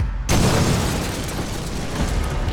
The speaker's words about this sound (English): an explosion shook the building, shrapnel bursting through the door.